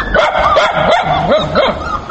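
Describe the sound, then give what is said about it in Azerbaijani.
Dogs of mixed breeds bark and yip in a pet shop at an animal market, a steady run of several high, arching calls following one another with little pause. “Şəhri Əsgərovanın mağazasında daha çox müxtəlif cinsli itlər satılır.”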